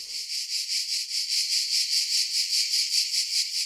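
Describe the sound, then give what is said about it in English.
Cicadas chirping and clicking in summer: a high, buzzing insect chorus that pulses in a steady, rapid rhythm, loud and continuous with no voices. “It's the sound of the summer. And this year, it'll be even louder than usual. Billions of cicadas will wake from their slumber underground and emerge bringing chirps, clicks, and exoskeletons with them.”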